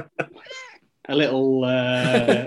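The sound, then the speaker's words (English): A male cat meows, first with a few short, quiet chirps, then a long, loud, drawn-out meow with a strong harmonic tone. “bonus cat as well”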